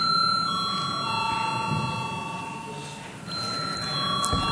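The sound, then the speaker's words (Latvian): An electric bell in a parliament chamber rings before a vote as a steady, fairly faint tone. The ringing breaks off briefly partway through and then sounds again over a low room murmur. “Lūdzu zvanu.”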